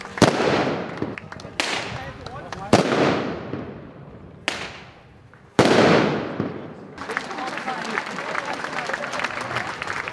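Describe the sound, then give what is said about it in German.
Volley shots fired by marksmen to open a shooting festival at the Duderstadt folk festival: about five loud, irregularly spaced bangs, each with a long fading tail, followed by steady crowd applause. “Geschossen haben die Schützen zum Auftakt des Schützenfestes nach der Ausrufung der 723. Ausgabe des Duderstädter Volksfestes.”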